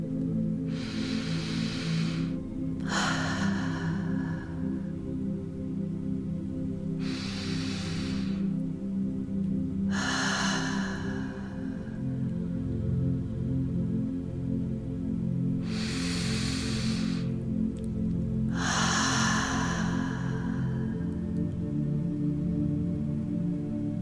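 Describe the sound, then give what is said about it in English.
During a guided meditation, someone takes three deep breaths, in through the nose and out through the mouth: six soft airy rushes in pairs, spaced several seconds apart, over a steady low tonal drone. “take 3 deep breaths. In through your nose and out through your mouth.”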